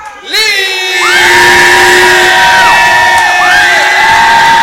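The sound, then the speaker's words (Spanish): An audience cheers and whoops loudly after a call for applause at an evening tribute event, sustained shouting voices with rising and falling tones holding steady to the end. “Damas y caballeros, un fuerte aplauso”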